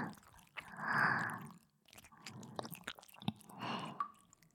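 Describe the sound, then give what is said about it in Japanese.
Fingertips stroke along the curve of an ear in an ASMR session, making soft, moist swishing and rubbing sounds that rise and fade in several slow swells, fairly faint overall. “耳のカーブに沿って指先ですべすべすべすべ”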